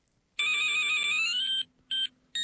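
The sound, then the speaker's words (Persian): A mobile phone ringtone plays: one long, loud electronic melodic tone, then two short bursts of the same ring, with no talk. “ببخشید، من مثل موبایلم رو خاموش نکردم.”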